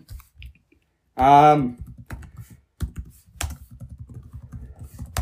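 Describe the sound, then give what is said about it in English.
Typing on a computer keyboard to look up a basketball player on a statistics website. A few light keystrokes come first, then a brief spoken word, then a run of quick, irregular key clicks. “Okay, so if I go to Basketball Reference... Okay, I type in Michael Jordan.”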